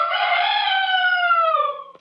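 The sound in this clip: Single rooster crow, a sustained bright harmonic call that holds steady and dips slightly in pitch toward the end before cutting off abruptly with a faint click, heard alone and fairly loud.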